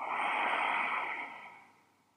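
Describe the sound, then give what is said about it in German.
A single long, deep breath during a relaxation exercise with a hand on the belly: an airy, steady rush that fades out softly at the end. “Leg mal deine Hand auf deinen Bauch. Atme tief ein und tief aus.”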